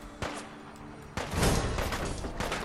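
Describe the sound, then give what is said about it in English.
Gunfire in a video game: a few sharp, booming shots stand out over a steady wash of loud, noisy game sound. “Who is shooting me?”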